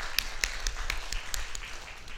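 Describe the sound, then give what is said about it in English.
An audience clapping for children at a gathering, heard as a faint, brisk run of sharp, evenly spaced claps with a steady rhythm that thins out toward the end. “Let us clap for our children.”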